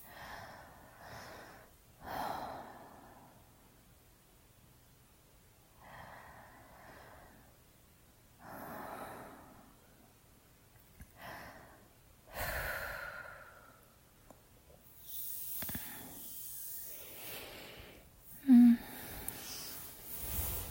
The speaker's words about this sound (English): Breathe with me.